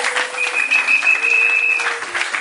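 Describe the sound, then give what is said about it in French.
Congregation applause at a church service, clapping offered as praise to the Lord; dense, steady clapping fills the whole span without a break, with no voices standing out. “Est-ce que quelqu'un peut acclamer le Seigneur? Une offrande d'acclamation au Seigneur.”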